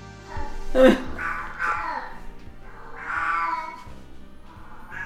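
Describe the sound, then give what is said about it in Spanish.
An unspayed female cat meows several times at home, moderately quiet, the mewing calls spread across a few seconds with soft low thumps between them. “Nos va a explotar el gato, ¿eh? Madre mía. Ay, pobrecita.”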